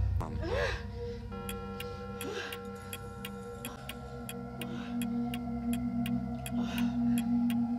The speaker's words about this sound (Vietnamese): Tiếng kim đồng hồ trong phòng lại vang lên một cách đầy ám ảnh.